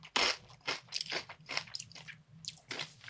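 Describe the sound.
Nuts are crunched while being eaten: many loud, crisp bites and crackling chews follow one another in an uneven rhythm, with no talking.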